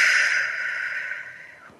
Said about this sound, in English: make it a big belly breath where you're expanding your belly as you breathe in through your nose and then out through your mouth